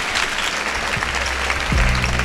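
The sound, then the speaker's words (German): Audience applause closes a book launch evening, a loud, dense wash of many hands clapping that grows slightly stronger near the end. “Einen ganz schönen Abend noch und einen riesigen Applaus für Friedemann Karik und Elias Jeschel.”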